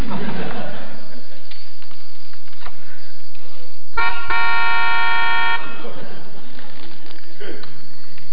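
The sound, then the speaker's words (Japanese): A car horn honks in one sustained, steady blast of about a second and a half, preceded by a brief blip, standing out over a loud, hissy, noisy background. “車のクラクション。”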